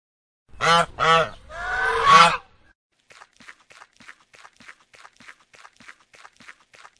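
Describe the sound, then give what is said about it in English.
A goose honks three loud, harsh, nasal times, the third call longer than the first two, followed by a run of faint, evenly spaced light taps. “Goose.”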